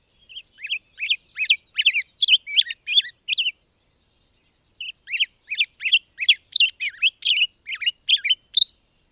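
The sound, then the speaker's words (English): Robin singing a fast, wild song of high, bright chirping notes with pause notes, in two lively bursts separated by a short silence. The song is clear and loud with nothing else audible. “And they call it the drunken robin because it just seems a little bit more wild and a little bit more sassy and faster than the American robin.”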